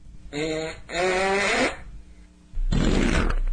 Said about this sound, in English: let's listen to this Bigfoot fart from one of Roosevelt Jackson's many Bigfoot expeditions.